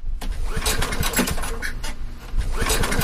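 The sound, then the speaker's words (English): Failed attempts to start an old portable generator in a basement that has not run since 2022, a rapid, buzzing mechanical cranking that never catches, surging and dipping in loudness throughout. “trying to start a portable generator that has not run since 2022. It doesn't start.”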